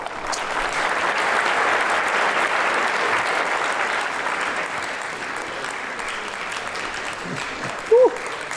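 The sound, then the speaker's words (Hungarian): Audience applause at a motivational trainer meeting: dense, steady clapping fills the whole clip at an even level, tapering only slightly toward the end. “Bárcsak ekkora tapsot kapnék a saját előadásaimon”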